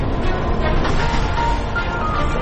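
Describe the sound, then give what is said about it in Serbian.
Interior of a bus travelling from Ilijaš to Sarajevo: a steady low engine rumble mixed with broad road noise, continuous and even, with no voices. “ovaj podcast ZIP završavamo u autobusu iz Ilijaše za Sarajevo”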